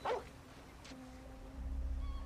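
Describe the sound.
A dog at a gate gives one short, sharp bark, followed by a faint thin whine and a low rumbling background.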